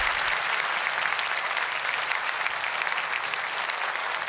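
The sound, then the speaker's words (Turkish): Audience applause at the close of a Turkish folk-song concert: a dense, steady roar of many hands clapping that holds at an even level throughout, with no individual claps standing out and no voices. “Sizlere teşekkür ediyorum. Sağ olun. Alkışlarınızla. Teşekkürler.”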